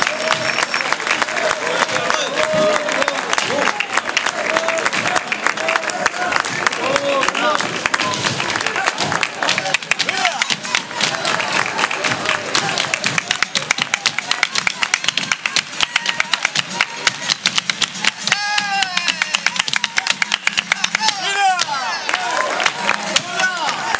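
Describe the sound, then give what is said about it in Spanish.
Loud applause from a live audience at a flamenco night in Manilva, dense steady clapping that lasts throughout, with voices mixed in. “Ese fortísimo aplauso. Esmeralda se va de Manilva con todo ese cariño de este público que tenemos aquí esta noche.”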